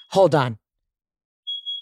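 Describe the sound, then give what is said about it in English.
A smoke alarm being tested sounds a steady, high-pitched electronic beep near the end, after a brief spoken phrase. A faint tone also sits at the very start. “I just said hi and the smoke alarm went off. Guys, the smoke alarm, Jeff's testing in them. They keep going off.”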